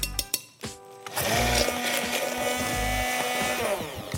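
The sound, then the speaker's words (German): Blender whirring as it purées hollandaise sauce with mustard and sour cream while a whole pack of warm melted butter is poured in: a few sharp knocks, then a loud steady motor drone to the end. “Und jetzt habe ich hier warme, geschmolzene Butter, ein ganzes Paket. Und das lasse ich da jetzt einfach reinfließen, während ich weiter püriere.”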